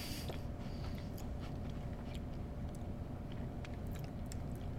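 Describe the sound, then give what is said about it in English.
Chewing on a whole biscuit taken into the mouth at once, heard as many faint, scattered crunchy clicks and crackles over a steady low background hum, with no talk. “I kind of took the whole thing in my mouth. I have an entire biscuit, as they say.”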